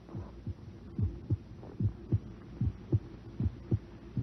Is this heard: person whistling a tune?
no

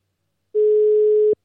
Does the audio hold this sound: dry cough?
no

